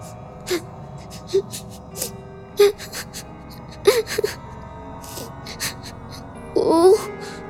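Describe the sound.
A child sobbing, with several short gasping breaths and whimpers spaced apart by quiet pauses, then a longer, louder wailing cry near the end.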